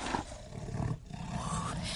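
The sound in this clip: A tiger breathes low and rumbling, with a continuous husky breath and faint growl-like texture that stays soft and steady throughout, with no voices.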